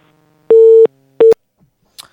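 A telephone busy tone sounds after a dropped call. Two steady mid-pitched beeps play, the first longer and the second cut short, followed by a faint click.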